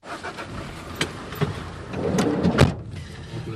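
A car drives through potholed back alleys in Bucharest. A few dull knocks and rattles break through the steady road noise as it bumps over the rough surface.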